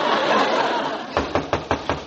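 Knocking on a door, a radio comedy sound effect: a quick run of sharp, evenly spaced raps follows a dense, steady wash of noise, with no talk over them.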